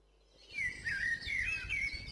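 Bird song: a short run of high, warbling chirps and trills repeating in quick phrases, fairly faint and heard alone.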